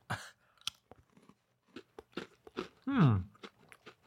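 Crisp crunching as someone bites and chews small tree-shaped, cheesy, oven-baked biscuits, a few sharp bites followed by a brief voiced murmur.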